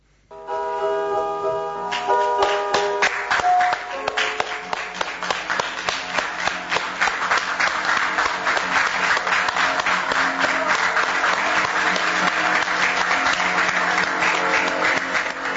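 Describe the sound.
Audience applause after a theatre performance: many hands clap in a dense, steady patter that opens over a brief held tone, then stays loud and even throughout.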